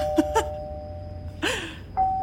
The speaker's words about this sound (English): do you want to ring the next doorbell? Hey, kid goes, yeah, absolutely. And then just continually presses the doorbell like 30 times until the person comes to the door.